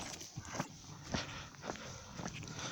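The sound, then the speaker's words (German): Footsteps crunch along a gravel hiking path, a few irregular, uneven steps rising from a steady bed of background noise. “Es ist ein geschotteter Weg und dadurch kann man eigentlich ganz passabel laufen.”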